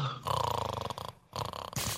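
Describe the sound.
Snoring from a person who has dozed off: loud, rough, rattling snores with fast pulsing texture, a short quiet gap midway, then the snoring resumes.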